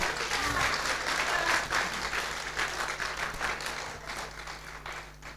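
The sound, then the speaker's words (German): Applause from an audience at a religious gathering, a soft, steady patter of many hands clapping that carries on evenly for several seconds, then eases slightly toward the end. “Und wir wollen ihn ganz herzlich begrüßen und herzlich willkommen heißen. Unseren Herrn mit einem Applaus.”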